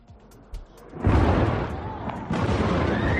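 Explosions and heavy bombardment in Tehran during an Israeli offensive: a few deep booms break out over a low, continuous rumbling roar that swells and stays loud.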